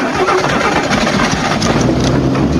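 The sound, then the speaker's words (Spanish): Straining engine of a stuck vehicle at risk of burning out, a loud, steady, rough roar that holds at high revs throughout without easing off. “¡Estás atorado, te digo! ¡Vas a quemar el motor!”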